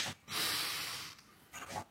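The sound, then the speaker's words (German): Deep breathing in through the nose: a long, airy, faint inhale, then a shorter second breath a moment later, with no talk. “Dann dürft ihr wieder durch die Nase tief einatmen”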